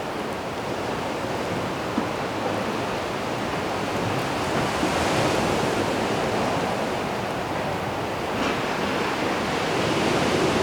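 Sea waves and wind on a seafront, a continuous broad rushing roar that holds at a steady level throughout with no distinct breaks.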